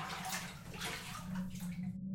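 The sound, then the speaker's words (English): Faint splashing and sloshing water continues steadily while a person washes their body from head to toe with a neem bush and egg. “I wash my body from head to toe with the neem bush and egg.”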